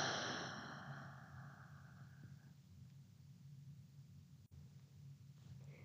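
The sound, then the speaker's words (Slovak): A deep, relaxed exhale through the mouth during a guided breathing exercise: a soft, airy rush of breath that gradually fades over roughly two seconds, leaving quiet near-silence. “A posledný nádych. A hlboký, uvoľnený výdych ústami.”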